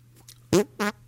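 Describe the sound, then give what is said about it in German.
Two short, buzzy fart-like blurts come from air squeezed between cupped hands. The first is louder and the second slightly shorter, with faint small noises before them. “Weil alle das kennen, auch dass ich mit den Händen furzen kann.”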